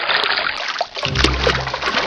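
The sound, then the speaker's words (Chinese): Water splashes and trickles as a salt-rubbed beef lung is rinsed in clean water. Irregular splashing comes first, then a heavier, steadier flow fills the second half. “搓过盐的牛肺用清水冲洗后，还要在热水中焯洗。”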